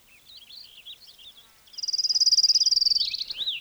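Fox sparrow song mixed with other birds: faint, high whistled warbling notes, then a long, rapid trill of evenly pulsed notes that grows louder, followed by a few more varied whistles.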